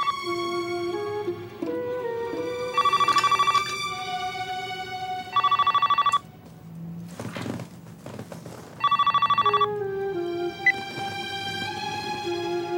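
A telephone rings in an apartment, with three loud electronic trilling bursts spaced a few seconds apart over a quieter, steady tonal background.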